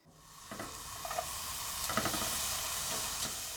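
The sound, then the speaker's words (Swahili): Onion frying in butter in a pan over low heat gives a steady, soft sizzling hiss that holds throughout, broken by a few light taps and stirring sounds. “Weka siagi kwenye sufuria na ukaange kitunguu kwa kutumia moto wa chini.”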